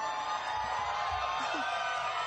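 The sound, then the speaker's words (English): Crowd noise from the audience at a Hall H convention panel, a steady wash of murmuring voices with a few faint whoops and calls rising briefly out of the hum. “It sounded like there was a decent crowd there. There was people there.”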